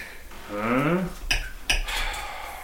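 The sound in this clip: Cutlery scraping and clinking against a plate while fake turkey is cut, with a few sharp metallic clinks after a brief voice.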